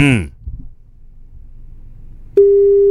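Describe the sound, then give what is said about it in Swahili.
Telephone ringing tone of an outgoing call to a listener in Bungoma: a brief voice and faint line hiss, then a steady, single-pitched tone switches on and holds to the end. “Shika simu, shika simu. Derek, simu yake ndio inaitana.”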